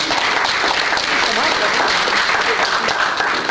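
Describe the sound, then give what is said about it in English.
An audience applauds to welcome a speaker with dense, steady clapping. The sound stays loud and even for the whole stretch, with no voices rising above it. “if you'll give her a hand and welcome her”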